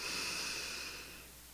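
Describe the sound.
A single long, deep inhale during a guided meditation, a steady airy breath that is strong at first and gradually fades.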